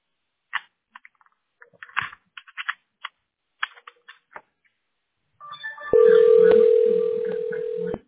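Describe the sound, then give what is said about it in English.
Telephone being dialed to transfer a call: many short keypad beeps in an uneven sequence, then a steady, loud ringing tone that continues alone to the end. “Okay, I'm dialing.”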